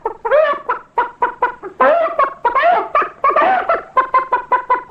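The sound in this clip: A human voice imitates a henhouse of chickens waking on a hot, sultry farmyard afternoon: many loud, rhythmic clucks in quick succession, broken by a few longer, drawn-out squawking calls.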